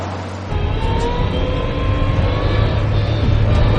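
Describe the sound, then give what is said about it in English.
A Volvo car reversing: a steady, low engine rumble starts after a brief quiet half-second and holds at an even level to the end, with no voices. “reverses in the Volvo.”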